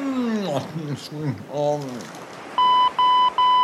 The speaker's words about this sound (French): C'est votre répondeur.